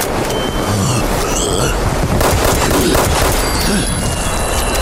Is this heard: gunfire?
yes

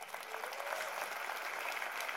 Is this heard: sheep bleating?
no

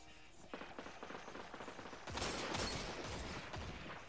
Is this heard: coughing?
no

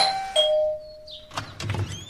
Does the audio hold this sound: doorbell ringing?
yes

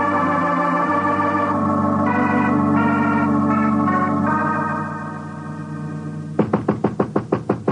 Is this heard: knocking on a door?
yes

